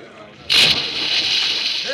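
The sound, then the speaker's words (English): A person jumps from a boat into the water: a sudden loud splash bursts in about a quarter of the way through, then gives way to a sustained hissing churn of disturbed water. “Some of you others, hold on to Pancho. I am going into the water.”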